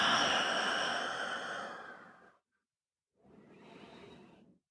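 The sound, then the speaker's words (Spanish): Deep, airy breathing during a guided breathing exercise: one long breath of over two seconds, a short silence, then a second, softer breath, with no talk. “Toma una inhalación profunda y llena tus pulmones. Sopla el aire, exhala.”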